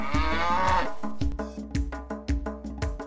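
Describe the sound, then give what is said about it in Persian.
A cow gives one long, low, drawn-out moo, followed by a rhythmic run of short, evenly spaced musical notes in a children's song. “من یه گاوم بچه ها، ما ما ما میگم، از خونه تا توی باغ علف ها رو میخورم، تا شیر تازه بدم.”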